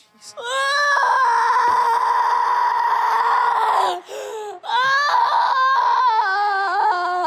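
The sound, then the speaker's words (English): A voice wailing in lamentation, with long, loud, sustained cries that waver in pitch, a brief break near the middle, then more wailing. “What are you doing? Wailing in lamentation.”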